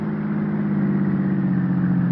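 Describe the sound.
A car driving up to a house's front steps gives a steady, even mid-pitched engine drone that holds at the same level throughout, with no voices.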